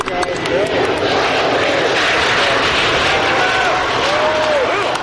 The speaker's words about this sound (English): You might say that the private space race had its own Sputnik moment nearly 50 years later with this launch.